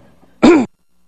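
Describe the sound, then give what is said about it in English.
During a church sermon, one short, loud, voiced throat clear sounds against near silence. “Am I making other people clear their throat now? One second.”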